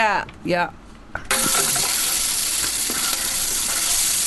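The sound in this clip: Onions frying in olive oil give a loud, steady hiss and sizzle that starts sharply after a brief voice at the start, then continues evenly to the end.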